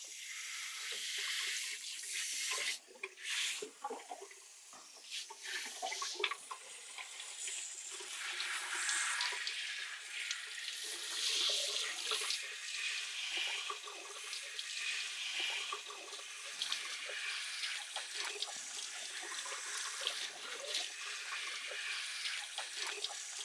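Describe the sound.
Warm shower water runs steadily for hair washing, a constant broad hiss with small splashes and flutters throughout, without any talk.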